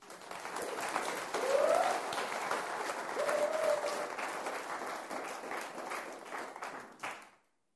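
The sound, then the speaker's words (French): A church audience applauds and cheers the Lord with a dense, lively round of clapping, a couple of short vocal cries rising above it, before the sound cuts off abruptly near the end. “Qui pense être béni ici? Ah, gloire à Dieu. Acclamons le Seigneur.”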